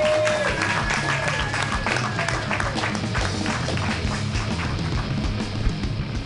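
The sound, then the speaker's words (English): Applause and crowd noise from an open mic audience welcoming a performer to the stage, a steady dense clatter of clapping that holds at an even level throughout. “Put your hands together for Florentina Tanasi.”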